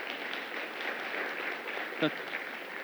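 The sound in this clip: A church audience applauds to welcome a member back to the service: a steady, dense wash of clapping runs for the whole stretch at an even level, with one brief low thump near the end.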